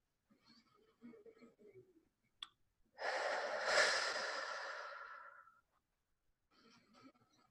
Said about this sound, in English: just begin by taking a couple of deep breaths in through your nose and out through your mouth with a sigh.